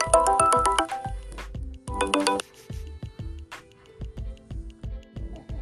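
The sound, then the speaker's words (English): A phone ringtone sounds for an incoming call: bright electronic melody notes in two loud bursts, followed by a steady run of softer, rhythmic low pulses. “That was a phone call I had.”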